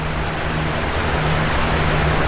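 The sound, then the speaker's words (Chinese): Rushing water pours over Murchison Falls on a fast river, a dense, steady roar that holds at an even loudness throughout. “瀑布前水流湍急，显然不是安家的理想之地”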